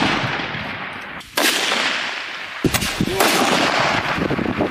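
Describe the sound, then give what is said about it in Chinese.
Sniper rifles fire during a shooting exam, with shooters braced on utility poles, ropes, rooftops and fortifications; three sharp, loud cracks sound over steady rushing noise. “在狙击科目考核现场，队员们依托电线杆、绳索、屋顶、工事等场景，借助救变器材自主选用射击姿势，打击各类目标。”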